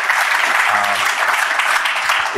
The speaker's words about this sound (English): We can put our hands together for them.